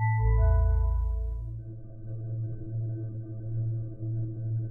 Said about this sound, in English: The ominous humming sound you hear is the containment field.